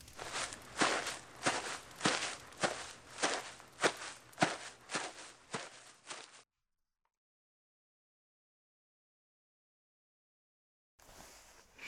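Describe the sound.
Footsteps of someone walking away upstairs: a steady, even series of firm steps at a regular pace that stops abruptly, followed by silence.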